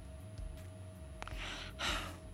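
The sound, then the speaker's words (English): A person imitates the heavy breathing of a silent phone caller with two breathy breaths, faint over a low steady hum. “That's all I know, they did. Like a serial killer. They just breathed.”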